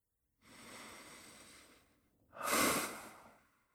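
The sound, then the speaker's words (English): Slow, airy inhale followed after a brief pause by a stronger, louder exhale. Plain breath sounds alone with no talk, the outbreath peaking and fading at the end. “Breathe and exhale.”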